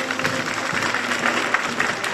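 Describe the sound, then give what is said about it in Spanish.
Spectators applauding at a military academy ceremony on the parade ground, a thick, continuous patter of many hands with small rises and dips throughout. “tras los honores militares, el rey ha pasado revista a las tropas para después unirse a sus compañeros y besar el primero la bandera en medio de los aplausos del público asistente.”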